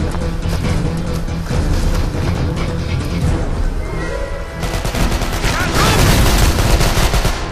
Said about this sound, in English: Hey look out! I'm shooting the lock!